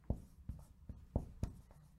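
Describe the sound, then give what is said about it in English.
Handwriting: a few soft, rhythmic pen strokes and light taps, quiet and alone, with short pauses between the marks. “So I'm going to write 40-year table.”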